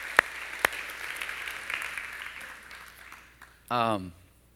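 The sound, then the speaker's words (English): Audience applause, moderately loud and steady, with a couple of sharp claps standing out near the start; it tapers off after about three seconds, and then a single voice calls out briefly. “Let's give everybody a hand right now.”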